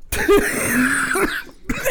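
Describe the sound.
A few loud, harsh coughs come in separate bursts, with a strained voiced stretch between them. There is no speech.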